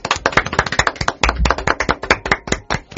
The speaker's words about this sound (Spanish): Un aplauso, por favor.